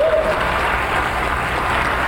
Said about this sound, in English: Give him a clap offering.